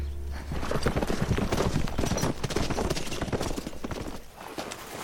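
Horses' hooves clatter in a fast, dense patter of many hoofbeats on a road through the kingdom of Mercia, moderately loud and continuous, easing slightly near the end.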